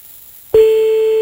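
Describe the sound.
A telephone ringing tone on an outgoing call starts abruptly after near silence, then holds as one loud, steady, unbroken tone at a single pitch.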